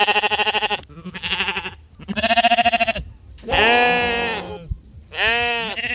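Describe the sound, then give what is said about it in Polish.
Sheep bleat loudly, grazing sheep kept to mow grass beside a lake and an old fort. There are five wavering, nasal calls in quick succession, with short gaps between them and no talk. “Na Zakrzówku i w forcie Bodzów możemy spotkać owieczki, które słyszymy też tutaj.”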